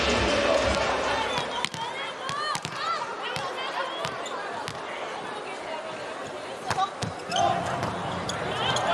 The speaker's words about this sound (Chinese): 好发球， 又是我们的反击机会。